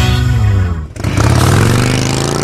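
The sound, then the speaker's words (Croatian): Motorcycle engine revving loudly, promoting a bike festival: a dense, throaty roar that dips briefly near the middle, then climbs steadily in pitch as the throttle opens again. “Osjeti grmljavinu motora i energiju dobrog rock'n'rolla.”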